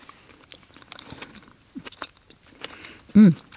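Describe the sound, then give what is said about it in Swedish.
Faint crunching and chewing of a crunchy dessert with Biscoff cookie crumbs and sauce, with a few soft bites and a louder sound near the end. “Och sen får man liksom hela kombon av lite crunch, lite sås, lite syrligt, lite fett. Nu ska jag smaka då.”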